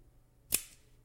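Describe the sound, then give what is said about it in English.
A single crisp snip as a Calibre cigar cutter clips the twisted cap off a cigar, brief and sharp, alone in the quiet. “So we're going to use my Calibre cutter. And we're just going to cut just that twist off right there.”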